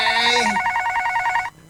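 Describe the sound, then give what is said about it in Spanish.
A telephone rings with an incoming call: a loud, steady electronic warbling tone pulses for about a second and a half, then cuts off abruptly into quiet. “Disculpe, pero tenemos otra llamada. Debemos atenderse.”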